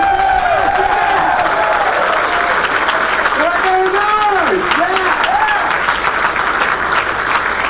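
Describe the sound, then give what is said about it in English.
An audience applauding and cheering at a talk at the BrickFest 2005 fan convention, a dense, steady clatter of clapping throughout with a voice speaking over it. “I assume from the sound of the audience, most of the rest of you felt pretty good about that too.”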